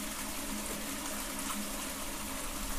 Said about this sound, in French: Écoutons celle qui chante ici, c'est l'eau.